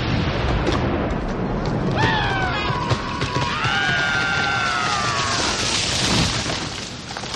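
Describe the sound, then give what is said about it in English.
Gunfire volleys on command in a comedy sketch as a dense, booming barrage that runs steadily throughout, with a long, wavering high cry carrying over the middle. “Enough talk. Men, ready, aim, fire!”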